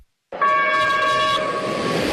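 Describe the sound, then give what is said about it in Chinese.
Horn of a loaded container freight train departing Wujiashan freight station in Wuhan: a single loud, steady blast sustained over the rumble of the rolling train. “伴着汽笛声，满载着集装箱的列车驶出吴家山货运站”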